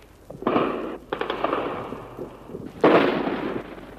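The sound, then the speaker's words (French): Machine-gun fire rakes the palace during the Viet Cong takeover, with several loud bursts of rapid shots separated by short pauses and a final heavy burst near the end. “Il tire à la mitrailleuse sur le palais.”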